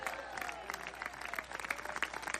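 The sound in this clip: A church audience applauds during a worship service, a faint, steady wash of many hands clapping that continues without a break.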